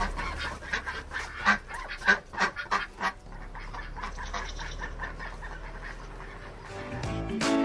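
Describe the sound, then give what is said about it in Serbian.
Ducks quacking loudly in a farmyard: many harsh, overlapping calls crowd together in the first few seconds, then settle into a steadier, noisy chorus. “Patke, one se deru.”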